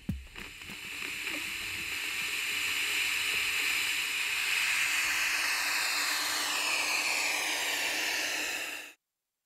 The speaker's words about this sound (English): It's easy to generate white noise using a simple circuit that sort of misuses a transistor.